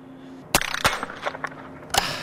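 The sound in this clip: Biathlon rifle shots: a few sharp, loud cracks, two close together and then a third after a pause, with a softer rustling clatter between them.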